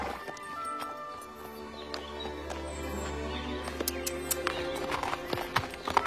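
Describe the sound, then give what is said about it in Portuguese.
A horse being ridden in a dubbed film, its hooves clip-clopping as sharp, irregular clicks that grow denser toward the end. “Andar a cavalo é mais fácil do que eu pensava.”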